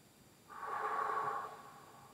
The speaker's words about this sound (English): Take a deep breath.